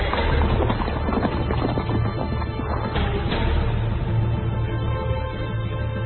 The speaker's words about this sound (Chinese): 却突然远处有辆大车是疾驰而来